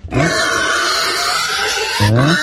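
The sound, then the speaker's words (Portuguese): Piglets given as raffle prizes grunt and oink continuously in loud, rough bursts, with two sharper squealing grunts at the start and near the end. “É, pois é, os porquinhos aqui das rifas aqui, ó.”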